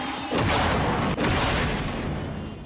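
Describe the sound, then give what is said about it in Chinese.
A ship blows up in a costume drama, a sudden heavy boom that swells into a sustained, dense roar, briefly breaks, then rumbles on and slowly tapers. “好吵啊！船炸了吗？”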